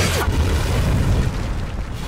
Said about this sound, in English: He's going to need something a lot bigger to get through this. What is that, a bazooka?